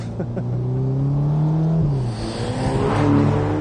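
A Ferrari Portofino M's 611-horsepower twin-turbo engine, fitted with gasoline particulate filters, revs with a deep, bassy tone. The revs climb, dip briefly, then build again, loud and alone without talk.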